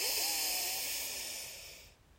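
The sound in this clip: A deep breath drawn in through the nose during a guided breathing exercise, heard as a soft, steady airy hiss that slowly fades over about two seconds.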